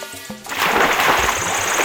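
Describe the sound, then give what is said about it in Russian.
A beaver jumps into water with a sudden loud splash, followed by sustained churning and gurgling water. “А чего это он так резко в воду прыгнул?”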